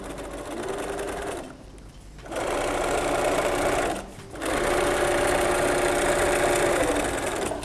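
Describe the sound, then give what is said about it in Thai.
Sewing machine stitching thick fabric to the end of a seam and backstitching once: a steady, fast mechanical whir runs in three stretches separated by short pauses, with no talk. “แล้วเราก็วางลงเราก็เย็บนะคะมันถึงจะเย็บได้สุดแล้วเราก็ย้อนกลับมาอีกหนึ่งครั้ง”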